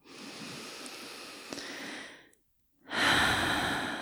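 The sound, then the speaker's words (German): Deep exhalations through an open mouth during a guided relaxation exercise: two long, soft, airy rushes of breath separated by a short silence, with no talking. “Dann nimm jetzt ein paar tiefe, bewusste Atemzüge ein und durch den geöffneten Mund aus.”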